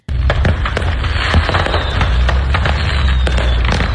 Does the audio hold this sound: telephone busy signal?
no